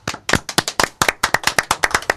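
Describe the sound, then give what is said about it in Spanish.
Audience applause greeting a guest on a televised show: many steady, rhythmic claps in a quick, even pulse, loud and with no talking over them. “Y le pido, pedimos un aplauso, señoras y señores, pedimos un aplauso para el señor Antonio Banderas”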